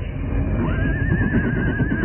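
A horse whinnies where it stands waiting on a moonlit night, a single drawn-out neigh with a wavering, quivering pitch. It rises over a constant low rumbling background noise and carries on to the end.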